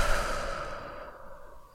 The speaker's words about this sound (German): Und dann atme noch einmal tief ein, tief aus